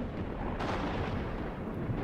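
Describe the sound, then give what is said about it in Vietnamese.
Lightning strikes down from the sky with a loud, dense, roaring crash that rumbles steadily without pause, with no voices. “Chỉ thấy tia sét giáng từ trên trời xuống thành một đường sáng rực.”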